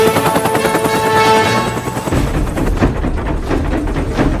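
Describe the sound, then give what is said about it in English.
Helicopter with a broken collective control flying close to mountainsides: a loud, dense rotor and engine roar with rapid pulsing throughout, growing rougher and more rumbling in the second half. “The helicopter narrowly avoids hitting the mountainsides.”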